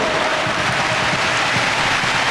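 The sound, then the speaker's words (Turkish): Football fans applaud in a stadium, acknowledging Norway's attacking pressure during a match. The clapping is a dense, steady wash of crowd noise that stays at an even level throughout. “Norveç'in baskısı alkış aldı taraftarından.”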